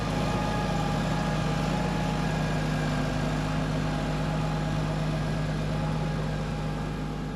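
A tractor engine drones steadily as the tractor drives back and forth over a silage clamp to compact the spread forage. The low hum is continuous, with a faint tonal whine and no pauses.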